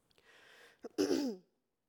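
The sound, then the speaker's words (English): Throat clearing from a tickle in the throat. A soft, breathy rasp is followed by a short catch and then a louder, gravelly clearing burst that fades out. “Sorry, I got a tickle in my throat, guys.”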